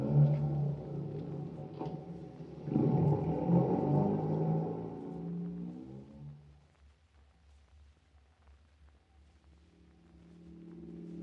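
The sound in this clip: A car drives slowly with a quiet, low engine hum that fades out about halfway through, then begins to rise again near the end.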